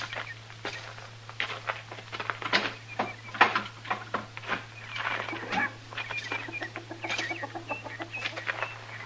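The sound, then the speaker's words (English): Chickens cluck in a barn: many irregular clucks and short calls overlap throughout, with a steady low hum running underneath. “Well, pretty good barn he's got here.”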